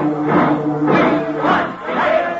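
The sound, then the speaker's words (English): Angry college football rooters massed outside the Yale dressing room, chanting in unison: loud, rhythmic shouted phrases that repeat a few times. “An angry crowd of rooters is gathered in front of the Yale dressing room, and as Frank steps through the door, he's greeted by the distraught Rutgers captain.”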